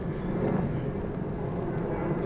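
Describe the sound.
A steady, even rumble of an airplane passing overhead above a shrine fills the whole clip without any clear rise or fade.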